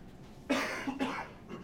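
A short double cough set off by a tickle in the throat: two harsh bursts close together, the second slightly broken, with no talk around them.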